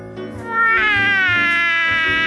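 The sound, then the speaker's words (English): A little black cat gives one long, loud, drawn-out meow that swells quickly and then holds steady with a slightly wavering, gradually falling pitch. “what do we have here? A little black cat? Oh, don't you have a home?”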